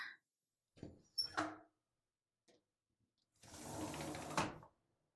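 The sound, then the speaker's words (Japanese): Window being opened in a cold room: a few soft clicks and handling knocks, then a sustained broad scraping slide of about a second that ends with a sharper thump. “寒いところ申し訳ないけど、窓開けるわよ。”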